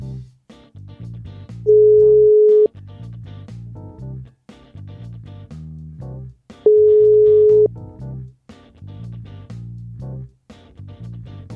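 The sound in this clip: Outgoing telephone call ringing tone: two long, steady, even-pitched beeps, evenly spaced and clearly louder than the continuous background music playing throughout.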